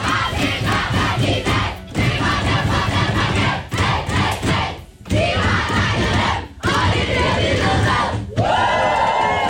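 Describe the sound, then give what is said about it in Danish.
The Danish women's national football team celebrates a win over Serbia in the locker room, with many voices shouting, whooping and chanting loudly together. The cheering is nearly continuous, with a few short dips. “Lyden fra omklædningsrummet hos de danske fodboldskvinder i går.”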